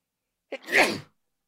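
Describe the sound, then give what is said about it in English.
A single human sneeze, a short sharp intake followed by a loud, breathy burst that quickly fades, heard alone against silence. “hang on, I'm going to sneeze.”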